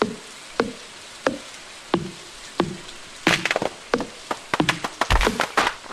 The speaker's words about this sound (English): Here's the sound of a tree being chopped down.